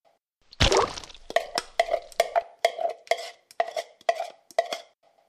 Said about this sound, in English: Okay, put a banana in the bowl, says Connie